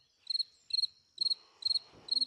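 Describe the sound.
Crickets chirping outside: five evenly spaced chirps, each a quick burst of three or four shrill, high pulses, steady and fairly loud, with faint low rustling underneath.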